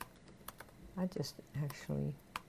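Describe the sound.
Typing a web address on a computer keyboard: a run of scattered, crisp key clicks with a voice speaking softly between and over them.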